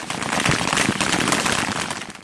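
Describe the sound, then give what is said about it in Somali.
Sporadic gunfire during a battle near the Jubba River, with militia fighters coming under fire as they flee: a dense, continuous crackle of sharp pops runs loud and steady through the whole clip with no pauses. “waxaa joogsatay rasaasta inteedii badnayd walow aad maqlayso mid teltel ah oo dhacaysa”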